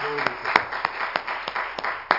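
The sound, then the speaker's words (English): Hand clapping during a church service, crisp claps spaced in a fairly even, steady rhythm, with a voice briefly heard at the start. “let's give the Lord a hand clap. Praise His holy name.”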